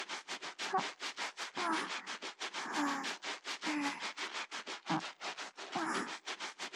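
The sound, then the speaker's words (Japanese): An armpit is scrubbed during washing: many quick, regular rasping strokes in a steady rhythm, fairly loud and continuous, with no talk. “まずは脇からゴシゴシしますね。そう、ゴシゴシゴシゴシ。”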